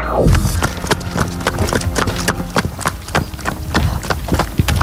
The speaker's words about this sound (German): Hörst du, in welcher Gangart unser Ronny Pony gerade läuft?